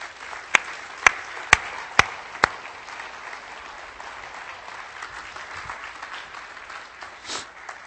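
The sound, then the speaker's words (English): Audience applause welcoming newly appointed missionaries to El Salvador: a steady, even patter of many hands throughout, with five sharp, louder individual claps standing out in the first two and a half seconds. “Would you please put your hands together and welcome Matt and Abby Richardson.”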